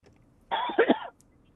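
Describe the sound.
A single short cough from a tickle in the throat, a quick muffled burst with a throaty catch, breaking a quiet pause.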